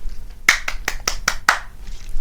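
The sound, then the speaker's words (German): Six sharp hand claps in a quick, evenly spaced run, loud and crisp over a quiet background, with the last clap slightly more drawn out before the sound fades back to near silence. “Applaus.”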